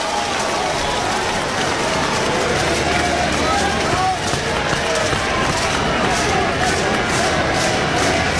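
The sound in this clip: Sooners fans cheer at a college baseball stadium, a dense, steady crowd roar that holds at an even level from start to finish.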